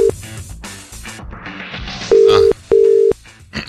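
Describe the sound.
Telephone tone after a call is hung up: steady mid-pitched beeps, a clipped one at the start and two clear, even ones near the end, following muffled noise.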